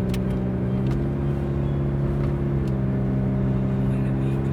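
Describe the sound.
Steady engine drone of a car driving slowly, about 60 instead of 100, on a fog-covered road; a low, even hum with faint whirring and no change in pace.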